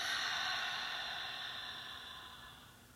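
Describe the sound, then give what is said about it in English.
During a guided breathing exercise, a deep exhale through the mouth makes a soft, breathy whoosh that slowly fades over about three seconds. No voice is heard. “Expand your belly. Fill all the areas of your body with oxygen. And then exhale through your mouth.”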